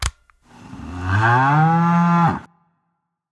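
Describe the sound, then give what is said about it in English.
A single long cow moo comes from a button on a farm-animal toy, low and full-throated, swelling in, holding steady, then cutting off abruptly after a small click at the start. “I was saving my moo button for marriage.”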